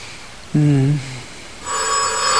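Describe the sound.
A telephone bell rings in a radio drama, a bright, steady ring that starts partway through and carries on to the end.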